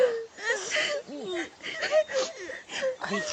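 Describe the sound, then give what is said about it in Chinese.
People crying, with wavering, sobbing and whimpering voices in short uneven bursts that rise and fall in pitch. “你们别哭了”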